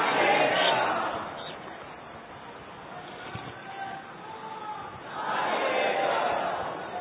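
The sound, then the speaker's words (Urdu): A crowd at a religious gathering chants a slogan, its voices swelling loudly at the start and again near the end, with a quieter murmuring stretch in between. “یہ نعرہ پابندی ہے تو فیضان عطار کا نعرہ نہیں لگایا کریں.”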